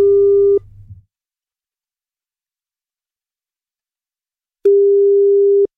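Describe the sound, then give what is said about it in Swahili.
Telephone ringback tone heard while calling a number: a steady mid-pitched electronic tone sounds briefly, a long silence follows, and then the tone returns. “Simu yake inaitana.”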